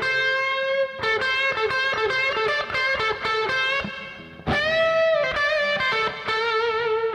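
Distorted electric guitar plays a minor pentatonic lead break with a bluesy feel. Many sustained, ringing notes run with steady intensity. The line pauses briefly near the middle, then resumes loud and alone.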